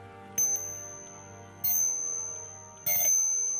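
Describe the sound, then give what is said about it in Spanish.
A clock strikes three times with bright, bell-like dings, evenly spaced about a second apart. Each chime rings out and fades over a faint, steady tonal background. “Hasta que volvió a sonar el reloj.”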